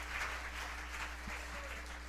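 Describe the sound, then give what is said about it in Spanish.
An audience applauds during a church service, giving praise to God: a faint, even wash of many hands clapping that holds steady without distinct peaks. “démosle ese aplauso al Señor con todo el corazón.”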